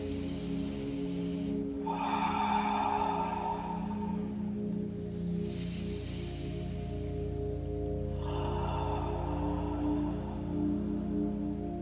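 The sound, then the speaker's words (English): Deep prana breaths during guided meditation: three long, airy breaths, each a soft rush of air, rising and falling over a steady sustained tonal background. “A few more deep, deep prana breaths, getting anything out that you don't need.”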